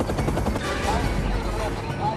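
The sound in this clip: Helicopter being hijacked on a helipad: a loud, steady rotor roar and rumble filling the whole clip.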